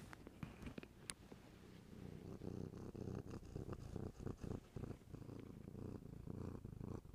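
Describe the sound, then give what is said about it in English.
A pet cat purrs softly and steadily, a low rhythmic rumble with even breaths in and out. It runs alone throughout, with no voices. “That's my cat.”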